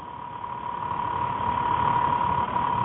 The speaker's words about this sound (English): I keep hearing a motor running. Is that on your end? It might be my my hard drive or disk drive or something.